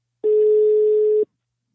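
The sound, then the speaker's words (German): A single steady telephone tone sounds as a call is placed. It is one clean, mid-pitched beep lasting about a second, alone against silence. “Und genau deshalb habe ich Sexualtherapeutin Heike Melzer angerufen.”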